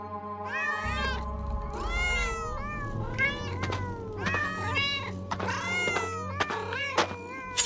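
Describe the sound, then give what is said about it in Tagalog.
Cats meowing and yowling in many overlapping calls, loud and insistent, with rising and falling whining pitches and drawn-out wails repeated throughout. “Mga lintik kayong pusa!”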